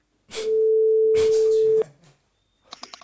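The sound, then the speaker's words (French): A telephone dial tone sounds as a steady, loud single pitch for over a second while a number is about to be dialed, followed after a short pause by a few quick, fainter dialing beeps. “Je vais composer le numéro.”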